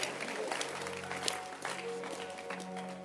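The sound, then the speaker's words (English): Audience clapping at a religious sermon, a dense, continuous wash of applause holding steady at moderate loudness for about three seconds, with no voice on top. “Can you clap your hands for this?”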